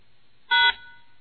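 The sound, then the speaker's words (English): A single short telephone keypad tone sounds as a voicemail passcode is entered, one bright beep standing alone against a quiet line. “Please enter your passcode, then press pound.”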